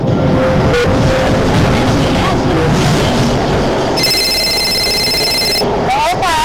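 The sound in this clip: A telephone rings with a shrill electronic tone lasting under two seconds. It cuts through steady background noise, and a voice can be heard around it.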